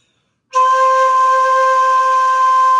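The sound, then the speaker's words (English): A straight note on a shakuhachi starts after half a second of silence and is held evenly without vibrato, a bright, breathy tone that stays steady and loud to the end. “So here's, again, I'll play you a straight note, and then I'll play the vibrato. So here's that straight note again.”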